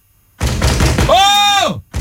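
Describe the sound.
Banging on a closed door, a rapid series of loud blows mixed with a voice shouting angrily over them.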